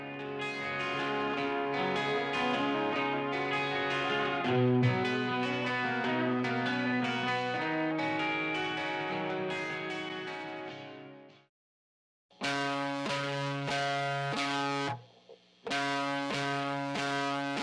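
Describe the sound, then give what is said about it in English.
Guitar arpeggio for a pre-chorus, played through a TC Electronic M3000 delay and reverb unit: many picked notes ring into each other, then a short gap and several choppy strummed bursts. “It's got great delays, great reverbs, and it gave this room sound that fit perfectly for what I was looking for that pre-chorus.”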